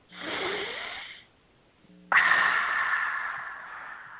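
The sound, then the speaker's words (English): Two long, noisy exhales are pushed out through the mouth after deep breaths, the first softer and fading after about a second, the second starting abruptly, louder and drawn out until the end. “Taking a deep breath in through your nose and let it out through your mouth with noise. As long as you can let it go out. That's it. Do that two more times.”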